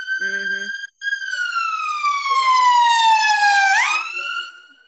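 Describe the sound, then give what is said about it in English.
An approaching emergency vehicle's siren wails loudly in a sustained tone whose pitch slowly sinks, then jumps sharply upward before the sound fades out. “Hold on, I got a siren coming towards me.”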